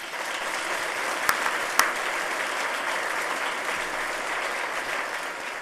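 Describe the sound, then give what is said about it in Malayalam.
Audience applause at an anniversary gathering, a steady, sustained roar of clapping with two sharper single claps standing out early on, then continuing evenly to the end. “എല്ലാവരും റെഡിയല്ലേ ഒന്ന് കൈയടിച്ചേ”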